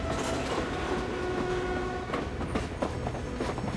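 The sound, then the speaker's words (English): A train slowing with a jerk as it nears the Mongolian border, heard from inside the baggage car: a steady low rumble with wheel clatter, then a few sharper clanks and jolts in the second half. “The train slows with a jerk.”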